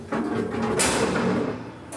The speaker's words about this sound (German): Jetzt den Schieber aufmachen.